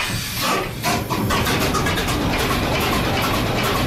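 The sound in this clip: A ship's diesel engine runs in the engine room, a loud, dense and steady mechanical roar that fills the whole clip with no voices, dipping only briefly near the start.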